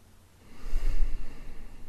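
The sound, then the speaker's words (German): Deep breathing during a guided relaxation exercise: after a quiet start, a soft, airy rush of breath swells and holds steady to the end. “Und einmal in deinem Rhythmus nochmal tief ein- und ausatmen.”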